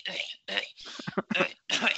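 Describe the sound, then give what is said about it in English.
A man deliberately clearing his throat with several rough, rasping bursts separated by short gaps. The middle burst breaks into quick guttural pulses, and the sound is fairly loud and heard on its own. “You got to do the clearing the throat so people understand.”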